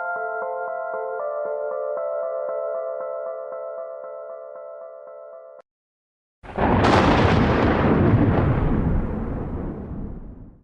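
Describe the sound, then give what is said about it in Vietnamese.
A loud thunderclap during a rainstorm: a sudden crashing burst that decays into a long, gradually fading rumble over several seconds, following a passage of sustained music and a brief silence. “Ngoài cửa sổ có thêm một tiếng sấm nổ vàng, mưa to trút xuống.”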